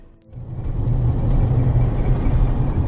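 A car drives along a road into thick bush, a loud steady low rumble that builds within the first half-second and holds constant with no talk.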